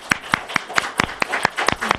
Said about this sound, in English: Okay, so let's give a nice round of applause.